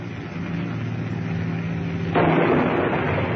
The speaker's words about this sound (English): First demolition bomb's on.